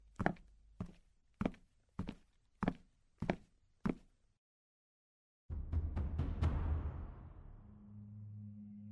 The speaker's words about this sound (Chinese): 他把礼物和公文包往沙发上一扔，蹑手蹑脚地来到楼上的卧室门前。